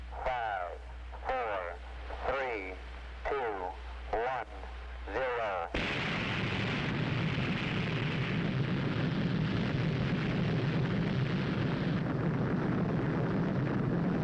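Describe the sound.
Missile launch roar from a countdown: a voice counts steadily down, then a loud, dense rumbling roar bursts in and holds without a break to the end.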